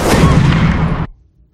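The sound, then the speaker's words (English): A loud shotgun blast fired at a police officer booms out as one heavy, rumbling burst that roars for about a second, then cuts off sharply into quiet. “The hooded orc steps out and blasts him with a shotgun.”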